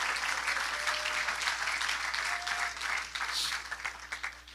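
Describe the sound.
An audience applauds during a church service, producing dense, sustained clapping that holds steady for the whole stretch without pause.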